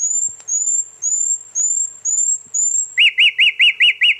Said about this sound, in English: But often this whole variety of sounds is drowned out by other birds singing. But when you hear it at 2 a.m, and that's when I recorded this sound, no competition.